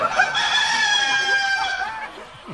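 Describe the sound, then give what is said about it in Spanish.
A chicken crowing and clucking in one loud, sustained, strained call that lasts about two seconds and fades at the end, with a few short clucks around it. “La sobaqueaba la gallina, ¿viste? Y viene un tipo y dice, oiga, ¿usted está robando la gallina? ¿Qué? La gallina confianzuda, la tiro.”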